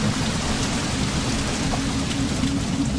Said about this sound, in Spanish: La lluvia se desató solo en segundos y obligó a Claudio a guarecerse bajo el típico corredor que tienen las casas coloniales.